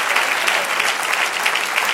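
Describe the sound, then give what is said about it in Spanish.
Applause from a church audience during a worship service: a dense, steady patter of many hands clapping that fills the whole two seconds without a break. “Dale un aplauso al Señor.”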